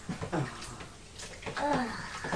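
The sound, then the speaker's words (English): Water splashing in a bubble bath as a baby is bathed, with a few irregular sloshing bursts at moderate loudness. “Keep her in the bath. Keep her in the bath. Splash! Splash.”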